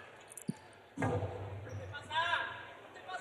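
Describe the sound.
A jai alai ball bounces hard off the back wall of the court during a match, giving a couple of sharp smacks, while a commentator talks over the rally.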